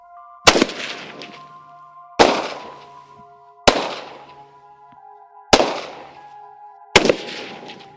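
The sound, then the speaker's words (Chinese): Five sharp rifle shots crack out at a military shooting range, fired from the prone position. They come evenly spaced, each one loud and abrupt with a brief ringing decay before the next. “射手起立，射击线就位，卧射预备，五发装子弹，左线预备。右线预备，全线预备，开保险，开始射击。”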